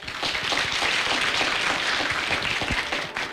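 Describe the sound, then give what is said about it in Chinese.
Audience applause thanks a speaker after a lecture before teachers and students, a sustained, even wash of many hands clapping that holds steady and loud before easing at the end. “让我们也再次用热烈的掌声感谢牛主任为我们带来的精彩演讲”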